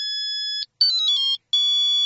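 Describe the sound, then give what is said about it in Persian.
Telephone ringing with a high electronic ringtone in three bursts separated by short gaps; the middle burst is a quick warbling trill and the outer ones are steady tones. “تلفن سرباز از دوباره زنگ زد”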